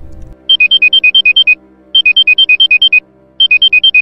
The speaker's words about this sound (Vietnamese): Tiếng chuông báo thức vang lên.